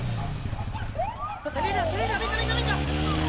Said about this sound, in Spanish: El coche de la policía le sigue.